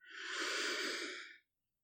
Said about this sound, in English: slow, deep breaths in through your nose and out through your mouth, okay? I'll do it with you. So, deep breath in